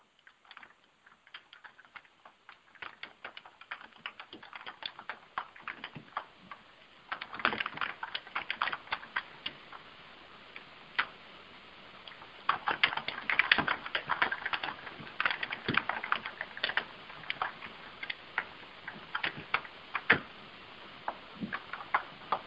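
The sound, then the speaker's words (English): Steady typing on a computer keyboard, many small clicking keystrokes in an irregular stream, softer at first and then denser and louder for the rest of the stretch, with no talk. “So I'm going to share that with my social universe as we social in 60 right now. So y'all are just going to hear me type in.”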